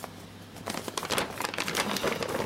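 Crinkling of a paper bag being handled: quiet, irregular papery rustles and crackles that build after a faint start and continue throughout, with no talk.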